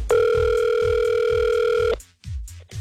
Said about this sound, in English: the call sounded something like this, or it did sound like this.